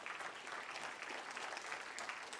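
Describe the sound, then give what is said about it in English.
Audience clapping during a sermon, heard as a soft, steady wash of many hands that runs evenly from start to finish without individual claps standing out. “Come on, give him a good clap. Isn't that great?”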